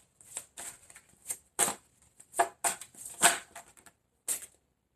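Tarot cards being shuffled and drawn, heard as many quick rustling, riffling bursts in an uneven rhythm with brief pauses between them.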